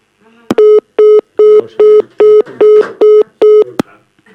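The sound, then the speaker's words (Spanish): A telephone call cuts off into a busy tone: eight short, evenly spaced beeps at one steady pitch, loud and alone, with a click before and after the run. “Da llamada, pero llega un momento en que se para y se cuelga.”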